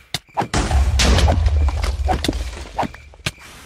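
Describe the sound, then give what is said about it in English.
Bow shots and arrow impacts in Minecraft hardcore mode: several sharp thunks and short snapping hits over a dense, noisy game background. “And then we can just stay back here and shoot a bow at it.”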